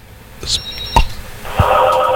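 Telephone tones signal an incoming call at a radio station: brief high beeps and a couple of clicks, then a loud, steady tone.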